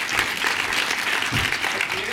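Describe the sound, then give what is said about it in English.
Audience applause greeting a film composer at a live event at the British Film Institute: dense, steady clapping that fills the whole stretch at an even loudness, with no break. “Ladies and gentlemen, please put your hands together and I'm thrilled to welcome Lorne Balfe.”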